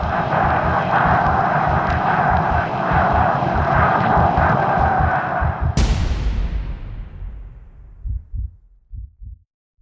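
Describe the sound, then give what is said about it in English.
World War II air raid bombing: a loud, pulsing aircraft engine drone breaks into a sudden sharp explosion that decays slowly, then a few dull, low thumps follow. “Air raids. Strategic bombing during World War II”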